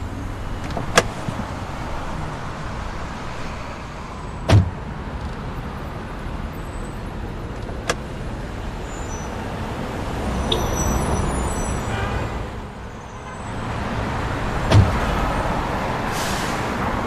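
A car engine idles as it warms up, a steady low rumble that runs throughout, broken by a few sharp clicks or knocks. No one speaks.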